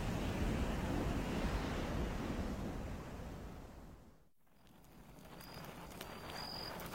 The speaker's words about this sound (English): But the northeast wind is still blowing, slowing down our evaporation.